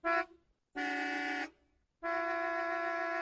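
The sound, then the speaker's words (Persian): Car horn honking in three separate blasts: a short toot, then a longer one, then a long held blast that runs to the end. All are bright, harmonically rich and clear with no talk. “صدای بوق زدن های مکرر که بعضی موقع واقعا میتونه آدم ها رو کلافه بکنه”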